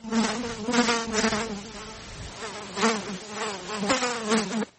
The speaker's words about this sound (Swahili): Kiwanda hiki kinatumia teknolojia mpya ya kisasa ya kufuga wadudu aina ya inzi wanaofahamika kama black soldier flies.